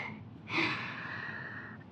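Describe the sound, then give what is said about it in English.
A single deep breath is drawn in, a quiet, airy inhale that starts sharply and holds for over a second, with no speech around it. “Another deep breath for good luck, I guess.”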